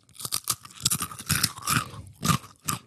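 Crunchy bites and chewing of crisp Knäckebrot crispbread. Many short, sharp, dry crunches come in an irregular rhythm with brief quiet gaps and no talking.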